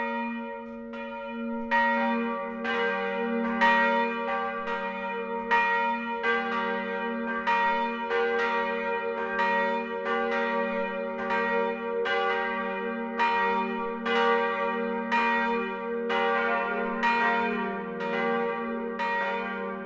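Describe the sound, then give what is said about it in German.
Midday bells ring from a Protestant church in a Middle Franconian village. Several bells of different pitch strike in a steady, overlapping peal, with many loud, resonant strokes and long ringing decay and no voices. “Das Mittagsläuten kommt heute von der evangelischen St. Willibaldskirche im mittelfränkischen Büchenbach.”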